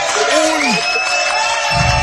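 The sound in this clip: Cheering and applause for a family: crowd noise with clapping, a voice letting out a whoop, and other voices mixed in.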